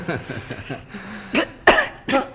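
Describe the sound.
Three harsh coughs from a smoker with an irritated throat, each a sharp, loud burst with a short gap between them, following a quieter stretch of sound.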